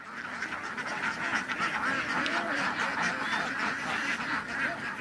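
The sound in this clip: Dense quacking from a flock of farm-raised ducks foraging in a harvested rice field, many overlapping calls merging into a continuous, steady chatter with no pauses.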